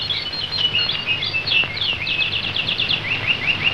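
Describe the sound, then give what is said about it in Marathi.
Birds chirping in quick, high-pitched trills and twittering runs, repeated throughout over a steady background hiss. “पक्ष्यांची किलबिल”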